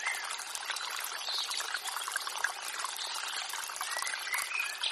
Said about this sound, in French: Progressivement, le ruissellement du petit cours d'eau s'atténue et laisse sa place à quelque chose de beaucoup plus grand.